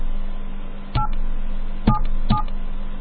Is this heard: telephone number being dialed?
yes